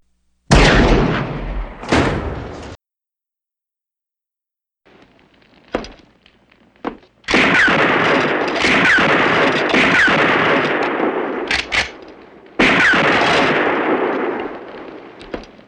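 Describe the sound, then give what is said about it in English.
Loud gunshots: two sharp blasts, a pause with fainter pops, then long stretches of dense, booming fire with ringing tails, stopping briefly before another heavy burst. “Good shooting. Very good shooting.”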